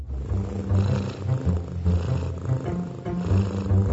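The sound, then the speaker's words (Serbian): A cat purring steadily, a low rumbling purr in rhythmic pulses that rise and fall with each breath. It is fairly loud and continuous, with no other sounds. “Šta? Ormar prede?”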